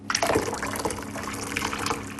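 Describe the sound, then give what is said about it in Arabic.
Water heated to 100 degrees Celsius is poured, giving a short run of splashing and gurgling liquid. The pour holds at a steady moderate level and carries a few brighter bubbling bursts. “حان وقت الماء الساخن بدرجة حرارة 100 درجة مئوية.”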